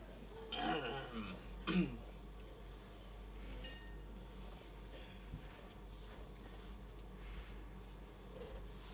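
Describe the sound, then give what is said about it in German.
People clearing their throats: two brief, rough bursts in the first two seconds, followed by quieter, steady background noise. “Räuspert euch. Wenn ihr husten müsst, jetzt, nicht später.”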